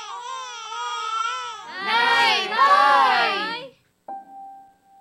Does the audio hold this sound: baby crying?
yes